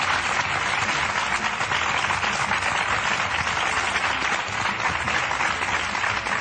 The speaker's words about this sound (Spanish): Un aplauso para todos ellos.